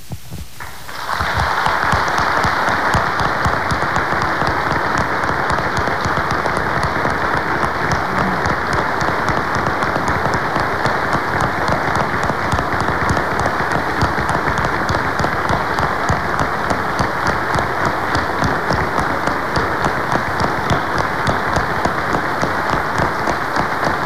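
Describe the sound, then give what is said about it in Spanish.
Sustained audience applause at a gathering, offered as a minute of tribute to people absent or deceased; dense, even clapping starts after a brief moment and continues steadily and loudly for over twenty seconds with no talk. “les demos un minuto de aplauso también.”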